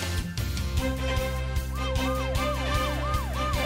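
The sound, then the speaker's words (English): Police car siren wailing in a repeating rise-and-fall pattern over an upbeat children's song remix with a steady thumping beat. “The brave police car is on the way.”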